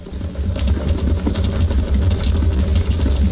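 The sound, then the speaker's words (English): A specially built electric pump switched on and running, giving a steady, dense low hum with a constant engine-like drone and no clear breaks. “Inject it? No, pump it. I built this pump especially for it. There's the pump switch”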